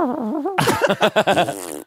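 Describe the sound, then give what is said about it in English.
A voice imitates fart noises, starting with a wavering, whiny tone and then breaking into a quick run of sputtering, pulsed blurts that trail off. “someone's edited one of those with fart noises all the way through.”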